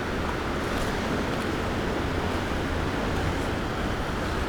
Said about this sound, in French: ressac des vagues,